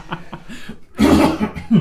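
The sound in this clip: A person gives a genuine, unscripted cough during an uncut recording. Softer throat sounds come first, then a loud, harsh burst, with another rough onset at the very end.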